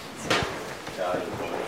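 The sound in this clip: A houseboat door is unlocked with a sharp metallic click and a dull knock, then quieter handling noise over a steady background.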